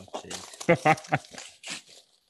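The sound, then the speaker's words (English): Paper tearing and crinkling as Christmas gifts are unwrapped: a few sharp rips and crunches come in short bursts alongside voices. “if you'd like to unwrap those for us now.”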